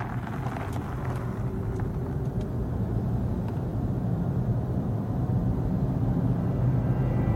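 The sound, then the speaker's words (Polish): An electric zero-emission BMW i3 car drives with a low, steady rumble and a soft wind-like hiss, swelling slightly toward the end. “Tak brzmi elektryczne, zeroemisyjne BMW i3.”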